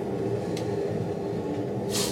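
Subway train interior: a continuous low rumble of the metro car in motion, with a couple of brief airy hiss bursts rising over the steady roar. No one speaks.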